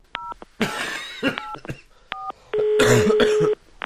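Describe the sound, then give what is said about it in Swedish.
A telephone being dialed: a quick run of short electronic keypad beeps at shifting pitches, broken by rough bursts of noise, then a longer steady tone near the end. “Jag borde ju ringa till min kompis som är doktor.”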